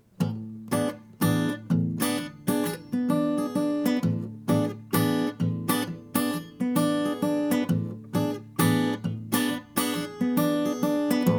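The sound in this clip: Muted bass strings on an acoustic guitar pulsed by the thumb in a steady, driving chug, with many short, even beats and brief ringing chord tones between them, played alone without talk.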